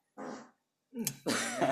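Fart sounds in three bursts: a short low rumbling one, a pause, then two longer, rougher blasts back to back, quiet overall.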